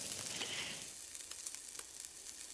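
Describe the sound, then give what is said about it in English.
Steady sizzling hiss of vegetables frying in butter and olive oil in a skillet, loudest at first and then settling a little, with small crackles popping over the constant hiss. “now I'm gonna add some more butter and olive oil to the pan and start all over with the softer veggies.”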